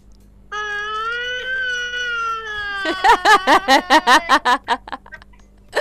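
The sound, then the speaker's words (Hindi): A child's voice imitates a girl crying: a long, steady wailing tone, then a rapid run of about ten rhythmic sob-like bursts that taper off. “अच्छा फातिमा कैसे रोई थी, रो के दिखाओ।”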